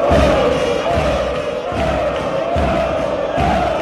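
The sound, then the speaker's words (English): Huge crowds in Buenos Aires gathered after the 2020 death of football legend Diego Maradona roar and chant, with regular low thumps pulsing beneath the continuous loud mass of voices. “Well, this is the sound of the huge crowds gathered in the Argentine capital, Buenos Aires, in 2020 after the death of football legend Diego Maradona.”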